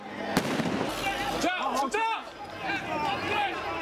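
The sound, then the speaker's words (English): Bangs and hissing whistles from police letting off smoke bombs and firing tear gas in a street: a sharp bang early, then a run of whistling, swooping bursts over a constant noisy background with voices. “In this video, police are letting off smoke bombs, firing tear gas.”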